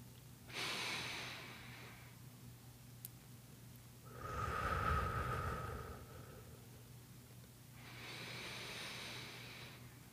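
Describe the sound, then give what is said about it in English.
Slow, steady breathing of a person in and out during a quiet moment of silence: three long, soft, airy breaths separated by pauses, faint and alone. “I'm still here because you can hear me breathing in and out. Try to match your breath to mine, slow and steady.”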